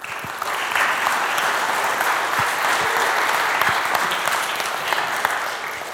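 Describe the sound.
An audience applauds to welcome two speakers onto the stage. Clapping swells within the first second into a thick, sustained ovation, then holds steady and eases slightly toward the end.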